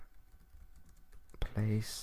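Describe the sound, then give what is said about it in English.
Typing on a computer keyboard: quick, irregular, soft clicks in rapid bursts, fairly faint throughout. “you have to bear with me because I do have to type these things in real time.”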